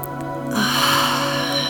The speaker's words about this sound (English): So let's take a deep breath. Hold it at the top.